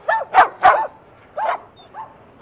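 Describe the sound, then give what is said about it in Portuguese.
Dogs bark outdoors at the Lisbon animal shelter, Casa dos Animais de Lisboa, a few short, sharp, mid-pitched barks in an uneven rhythm, the first ones quick and close together. “Cá fora estão à vista apenas os cães, mas também animais lá dentro, no centro.”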